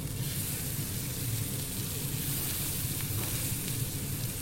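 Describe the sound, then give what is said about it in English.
Food frying in a red-hot non-stick pan with very little oil makes a steady, even sizzling hiss that runs without a break and with no voices. “Very, very little oil. Coloured one side, and then turn, colour the other side. Basically about 30 seconds each side, then serve straight away. And in they go.”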